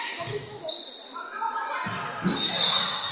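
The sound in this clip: Basketball dribbled on the court during a women's game: a few dull, low thuds of the ball under steady talk and faint squeaky court noise.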